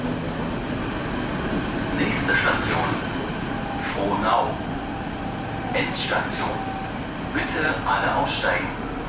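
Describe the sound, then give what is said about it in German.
An S-Bahn commuter train ride in Berlin: a steady, low rolling rumble with rail clatter throughout, and indistinct voices surfacing now and then over the noise. “Nach Frohnau kommen wir mit der S-Bahn.”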